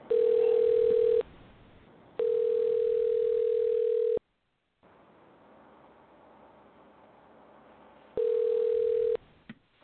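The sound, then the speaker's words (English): A telephone ringback tone sounds while a number is being dialed: three steady, single-pitched tone bursts, each one to two seconds long, separated by gaps of faint line hiss. “The number is dialing.”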